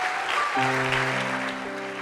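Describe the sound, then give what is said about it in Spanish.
Audience applause in a church, a dense, even clatter of clapping throughout, with sustained musical notes entering partway through and continuing underneath. “Un aplauso fuerte a toda la gente, los bendecimos.”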